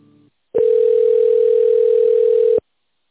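A telephone ringback tone plays while a call is transferred: one steady mid-pitched beep of about two seconds, heard alone with no talk over it.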